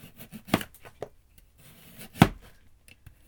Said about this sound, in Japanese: 人参も輪切りでいいかな、薄めの輪切りに。